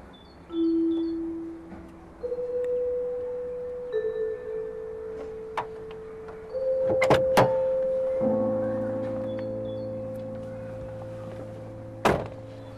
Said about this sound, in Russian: Она подходит к этой машине и садится в нее.